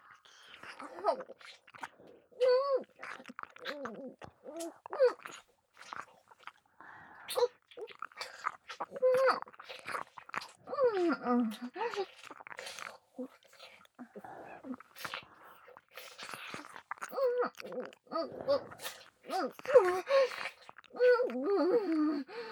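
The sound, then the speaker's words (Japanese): Wet ear-licking mouth sounds in an ASMR recording: an irregular stream of soft, moist smacks and slurps, quiet throughout, with faint whispering mixed in. “じゃあ次は私が耳を舐めよっかな。”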